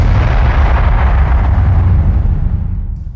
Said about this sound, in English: One more bomb for that one, man. One more bomb.